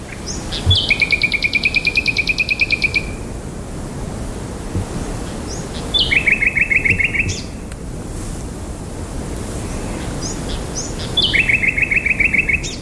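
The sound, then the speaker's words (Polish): Birds trilling and singing at a housing estate in Warsaw: three high phrases, each opening with a sharp note that rolls into a rapid buzzy trill, separated by pauses over a steady soft hiss. “przywitają nas ptasie trele”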